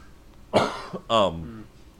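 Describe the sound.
Someone coughs twice with something caught in the throat, two short, harsh, voiced bursts, the second more rasping and throaty, standing out loudly against a quiet background.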